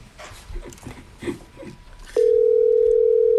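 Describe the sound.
A telephone ringing tone on a call that goes unanswered: a loud, steady, single-pitched tone starts about two-thirds of the way through and holds to the end, after a stretch of faint muffled noise.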